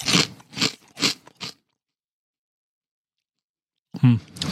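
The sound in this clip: Crunching and chewing on a jalapeño snack: four short, loud crunchy bites in quick succession, then silence, and a brief voice near the end.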